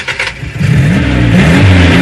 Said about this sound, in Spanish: ¡Un auto!